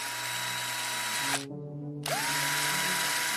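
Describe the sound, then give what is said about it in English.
Electric screwdriver whirring on a bolt inside a car, a steady, loud motor whine that drops out briefly midway, then spins back up with a rising pitch and runs on. “Reaching into the glove compartment, I pulled out a screwdriver, found the bolt, and turned it on.”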